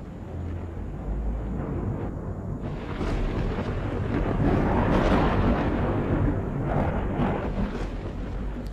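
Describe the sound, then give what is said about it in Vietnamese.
Thunder rumbles across the sky as lightning strikes a warehouse and townspeople flee, heard as a broad, steady roar that swells a few times, without any voices. “ở trên trời cao, những tiếng nổ đoàng đoàng vang lên, là những tiếng sấm sét cắt ngang bầu trời.”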